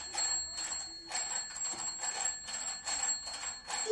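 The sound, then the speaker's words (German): A telephone rings with bright, metallic bell trills repeated in a quick, even rhythm, fairly faint and with no voices. “Dein Telefon klingelt. Los, geh mal ran. Dein Telefon klingelt.”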